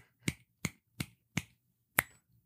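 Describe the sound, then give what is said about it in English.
Five crisp finger snaps, the first four in a steady rhythm and the fifth after a slightly longer pause, each sharp and clear against near silence. “Can you just tell the audience which finger you're snapping? That is crazy.”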